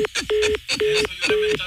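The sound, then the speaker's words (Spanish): A telephone line tone sounds after a prank call is hung up: four short, steady mid-pitched beeps repeat at an even pace, loud, with other clutter mixed in around them. “Esa colgada de teléfono y una mentada de madre es lo mismo.”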